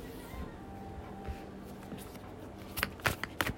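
A deck of playing cards is shuffled quietly, a low papery rustle that ends in a few sharp, crisp riffling bursts.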